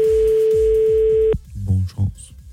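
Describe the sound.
A telephone ringback tone heard while calling someone: a single steady beep lasting over a second, over a low pulsing beat, then cut off as voices begin speaking.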